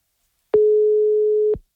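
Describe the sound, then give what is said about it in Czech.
A telephone line tone plays during a call: one steady mid-pitched beep lasting about a second, starting and stopping abruptly against silence. “Teď ale je to na nás, pojďme vytáčet.”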